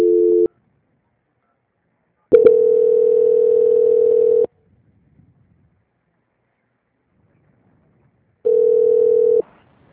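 A telephone line tone sounds while a call is being transferred. It comes as a few long, steady, mid-pitched tone bursts separated by stretches of silence, with no talk over it.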